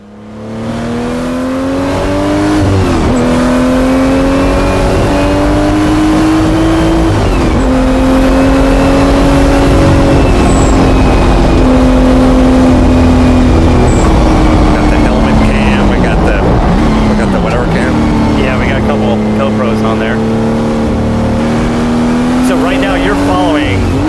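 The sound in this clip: A car is driven hard on a track, its loud engine note climbing and then dropping sharply a few times as it shifts through the gears. The engine runs continuously for the whole stretch without pause.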